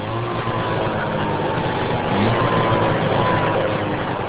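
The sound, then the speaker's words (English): A Ski-Doo Formula SL snowmobile engine roars steadily, a loud, even drone with a low hum underneath that holds without pause throughout. “Weasel is 12, been driving snowmobiles since he was 9. This one's his very own, a present from Dad. It's a Skidoo Formula SL,”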